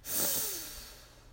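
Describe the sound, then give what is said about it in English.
A slow breath during a relaxation exercise: one airy breath swells quickly, then fades gradually into quiet. “Breathe in and out. Ah. Breathe in”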